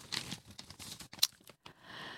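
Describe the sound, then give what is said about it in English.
A sheet of paper being handled: a few brief, papery rustles and crinkles, with one sharp crackle near the middle, followed by a softer, steadier rustle. No one talks. “let me get my sheet of paper.”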